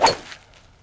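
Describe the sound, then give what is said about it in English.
A golf driver strikes a teed-up ball resting on hard salt-crystal flats, giving one sharp, bright crack that dies away quickly into near silence. “The ball sits on a stiff white carpet of salt crystals, so you tee it up and hit the driver.”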